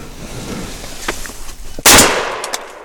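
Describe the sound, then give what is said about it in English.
A single loud gunshot is fired at a wild turkey during a hunt. It is a sharp, sudden blast with a decaying tail, and a few faint rustles come before it. “Shoot him. Pop up and shoot him.”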